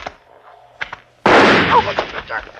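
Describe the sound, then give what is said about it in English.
A sudden loud gunshot fired at a man's head bursts in after a few faint voice-like sounds. The blast has a sharp attack and a harsh, noisy sustain that stays loud and rough until the end. “I shot him in the back of the head. I knew he was dead before his body slipped to the ground.”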